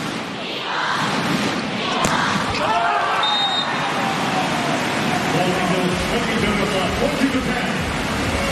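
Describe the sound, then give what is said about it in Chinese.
A volleyball serve during a match: one sharp slap of hand on ball rings out over a steady, loud crowd roar that fills the whole stretch. “让哈吉来发球”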